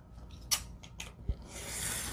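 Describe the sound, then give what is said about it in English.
Scissors snip off rough edges with a few quiet, crisp cuts, followed by a soft, steady hiss. “Maybe just cut off these rough edges.”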